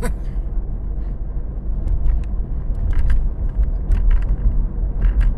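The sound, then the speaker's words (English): A moving car produces a steady, fairly loud low rumble of engine and road noise. Light clicks and rattles are scattered over it now and then. “Sorry, I am driving.”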